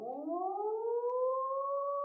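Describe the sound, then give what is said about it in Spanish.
A warning siren wails alone, its tone sliding steadily upward in pitch and settling into a sustained high note. “Al cabo de mucho rato, volvió a sonar la sirena.”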